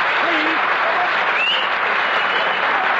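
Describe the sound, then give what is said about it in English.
Steady applause from a live audience at a comedy performance, called for by the performer after a song; the clapping forms an unbroken, fairly loud wash from start to finish with no clear pauses. “Now, applause, please.”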